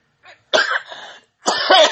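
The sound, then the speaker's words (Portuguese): Coughing from an allergy: a brief faint cough, then two strong, rough coughing bursts separated by a short pause. “Essa tosse de alergia não é de coronavírus, tá?”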